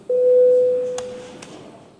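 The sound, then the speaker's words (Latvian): The Latvian parliament's bell rings before a vote as a single steady electronic tone. It holds for under a second and then fades out, with a couple of faint clicks afterward. “Vai deputāti vēlas balsojumu? Lūdzu zvanu.”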